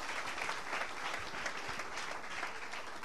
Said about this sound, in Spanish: si le va a dar el aplauso, dáselo, no te preocupes.